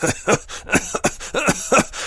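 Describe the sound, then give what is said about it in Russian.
Wet, choking coughs from a wounded man coughing up clots of blood, a quick series of harsh, throaty bursts separated by short gasps, loud and alone. “Откашлявшись красными комьями, Дэви заставил себя усмехнуться.”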